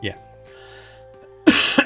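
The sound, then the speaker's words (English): Coughing from a person: near-silence, then a sudden harsh cough burst near the end, followed closely by a second smaller burst. “I'm sorry for the coughing.”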